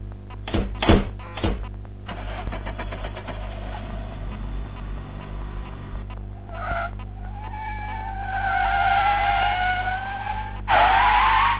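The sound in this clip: Car tyres squeal as a vehicle spins donuts in the middle of a street. A few sharp knocks and rumbling engine noise come first, then long, wavering high squeals that grow louder toward the end.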